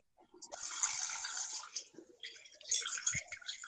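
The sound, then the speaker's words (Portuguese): A woman urinating produces a hissing, splashing stream of liquid that starts abruptly, runs steadily, dips briefly midway, then resumes with uneven spatters until the end. “Mulher, a senhora tá lavando a mão ou tá, tá, tá mijando, mulher? Eu tô tá mijando, peraí.”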